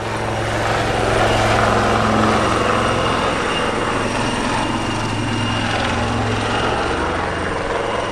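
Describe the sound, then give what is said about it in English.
A UH-1 helicopter flies overhead, its loud, steady rotor and engine drone filling the whole stretch with no break, with a deep, even throb under a broad roar. “I felt the car shaking and looked up to see a UH-1, so that was quite impressive.”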